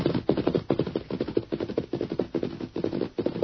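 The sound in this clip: Rapid gunfire is aimed at a man, with many sharp shots in a fast, steady rhythm. The bursts run continuously at moderate loudness with no pause.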